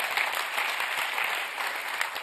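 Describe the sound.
A church audience claps during a sermon, a dense, even patter of many hands that stays at one level for a couple of seconds.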